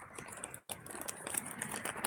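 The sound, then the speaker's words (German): A paper receipt being folded, giving faint, continuous crinkling and rustling with one brief pause partway through. “Ich falte jetzt gerade den Brief zusammen. Also den Zettel. Den Kassenbon.”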